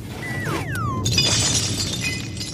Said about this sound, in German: Die Flaschen fallen in den Frachtraum.